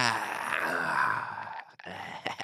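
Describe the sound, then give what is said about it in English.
A voice imitates a yawn with a long, drawn-out groaning tone that sags and fades, breaks off briefly, then returns as a short murmur. “I bet he even yawns like that, where he's like,”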